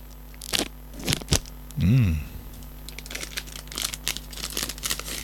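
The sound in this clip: Plastic wrapping around a surprise figurine crinkles and tears as the packet is opened. It comes as a few sharp crackles and rustles, then a busier stretch of crumpling.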